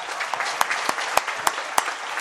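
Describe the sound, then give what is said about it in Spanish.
Applause from a parish audience honouring a priest: steady, fairly light clapping, with a few sharper, louder single claps standing out at regular intervals. “padre Ruperto, que merece un aplauso por el Ruperto móvil”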